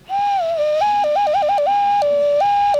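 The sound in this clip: An ocarina-like whistle blown through a small hole in an object plays alone, a steady, pure tone that flips back and forth between two pitches several times.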